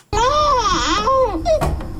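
A malnourished young child in Afghanistan, ill for about a year, cries in wavering, whimpering wails that rise and dip in pitch, continuous and fairly loud with a short break near the end.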